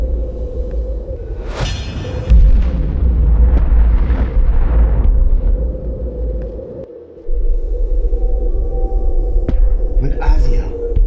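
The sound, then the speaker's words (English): A whole warrior division explodes in the middle of a battle camp. A sharp burst gives way to a deep, rolling rumble that lasts several seconds over a steady hum, then drops out briefly before low rumbling resumes. “cast his sword upon Rav Shaka, it was he and his entire division that exploded”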